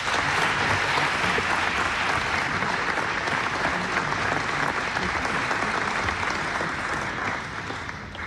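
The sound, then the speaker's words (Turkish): Audience applause at a folk music concert: dense, continuous clapping at an even loud level throughout, thinning slightly at the very end. “Mehmet Erenleri alkışlıyoruz.”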